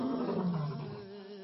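A lion roars once, a deep, rough, sustained bellow that drops slightly in pitch midway and then holds steady before fading, with no voices around it.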